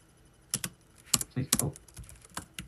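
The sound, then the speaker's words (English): Computer keyboard typing with many quick, crisp keystrokes in irregular bursts, clicking unevenly and briefly pausing between short runs. “In that quote, type space, and then type careers. And in that quote as well and press enter.”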